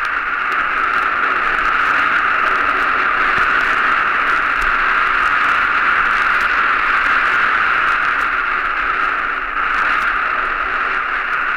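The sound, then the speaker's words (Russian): Steady, loud hiss of radio static, presented as the white noise of space picked up by a radio telescope, runs unbroken and even for about eleven seconds with only a brief dip near the end. “долетают взрывы рождающихся звезд, голоса галактик. Это белый шум космоса.”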